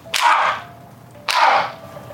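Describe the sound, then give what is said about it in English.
Two sharp gunshots picked up by a security camera microphone ring out about a second apart. Each is a sudden loud crack that fades over a short ringing tail, and no voices are heard. “two gunshots.”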